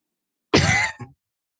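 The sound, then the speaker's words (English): A double cough: a longer, harsh burst quickly followed by a shorter second one, then silence. “It was a double cough.”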